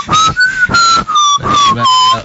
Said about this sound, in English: But it's starting to be mischievous whistling when I say certain things.